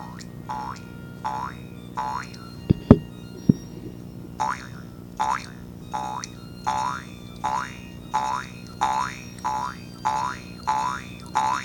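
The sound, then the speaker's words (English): A jaw harp twangs in a steady, repeated rhythm of many bright, resonant boings with wavering tone, and a couple of sharp clicks sound early on. “So here's how this jaw harp should really sound.”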